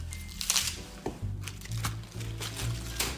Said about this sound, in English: with my hands, because I kind of like the look of that better than a perfectly square cut piece of romaine. So tear them